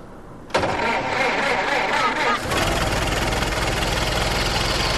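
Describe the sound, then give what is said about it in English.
A car engine starts with a sudden loud catch, then runs rough and busy before settling into a fuller, steady idle that continues loudly to the end. “just put the key in and start the engine”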